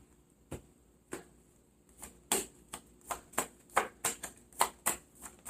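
Tarot cards being shuffled and drawn, heard as many soft, crisp snaps and slaps, spaced apart at first and then coming quicker, faint and without voices.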